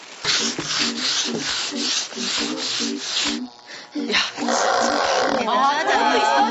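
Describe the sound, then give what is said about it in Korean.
Sandpaper rubbing on a surface being stripped by hand sanding, with repeated rasping strokes in a steady rhythm, loud and gritty, under people talking. “사포로 사포질 해야 돼. 사포질을 안 하면은 오, 안 먹으니까. 훨씬 빨리 돼.”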